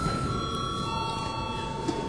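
Electric bell rung in a parliament chamber to call members to a vote: a continuous, steady buzzing ring with sustained metallic overtones, unbroken throughout.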